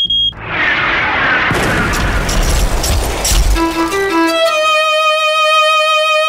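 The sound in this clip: Missiles launching and exploding as a sound effect: a loud, dense burst of booming blasts and low rumble that builds over a few seconds, then gives way to sustained high ringing tones.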